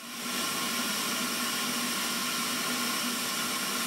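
Compressed air drives a suction lid that pulls roughly 950-degree molten metal from a furnace into a crucible through a long spout, producing a loud, steady rushing hiss with a faint underlying hum.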